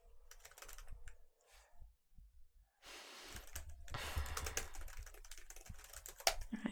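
Someone types a note on a computer keyboard: scattered short runs of keystrokes, a brief lull, then a denser, steadier stretch of rapid clicking, fairly soft and with no voices.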